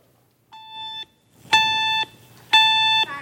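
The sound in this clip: A fire alarm gives three steady, high electronic beeps of about half a second each, evenly spaced, the first softer than the two that follow.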